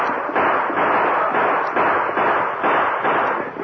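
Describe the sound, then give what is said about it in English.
Gunfire from a posse of riders coming in fast, many loud, sharp bursts in a quick regular rhythm, dense and continuous with no voices. “the sheriff and his posse rode in fast, firing as they approached.”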